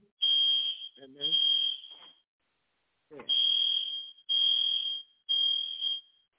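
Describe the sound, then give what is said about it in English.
A fire alarm sounds five long, shrill electronic beeps, each about a second long, in an uneven rhythm: two close together, a pause, then three more. A faint voice briefly mixes in under the tones. “that's just a fire alarm doing its thing, off timing.”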